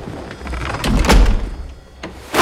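A door is pushed shut with a dull, heavy thud, surrounded by faint shuffling and rustling, followed by another short knock near the end.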